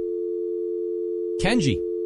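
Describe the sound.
A Skype call being dialled sounds out as a steady, mid-pitched telephone tone held without a break, with a short burst of speech laid over it near the end.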